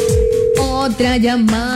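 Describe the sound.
Telephone tones while a call is placed, loud and electronic: a steady higher tone gives way to a lower sustained tone, with short repeating sweeps underneath.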